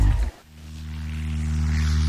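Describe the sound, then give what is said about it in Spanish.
A light propeller aircraft in flight gives a steady, low engine drone with a buzzing tone. It follows a short, loud low burst and gradually grows louder. “En A Vivir a Rías, este sábado, subímonos a unha avioneta para descubrir Mazaricos dende o aire”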